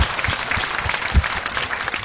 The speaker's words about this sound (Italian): Io farei innanzitutto un applausone a tutti gli artisti che sono esibiti oggi, sì, che sono stati veramente bravissimi.